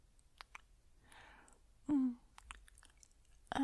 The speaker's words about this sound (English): Let me kiss your hand again, kind human. Your hand is so warm against my lips.